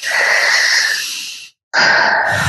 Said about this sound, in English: Now tap under your nose. Big, deep breath.